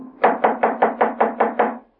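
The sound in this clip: Knuckles knock on a cottage's front door, which stands ajar: eight quick, evenly spaced raps in a steady rhythm, alone and clear.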